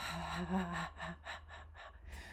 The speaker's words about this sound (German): Und am besten dabei auch noch viel ausatmen, so.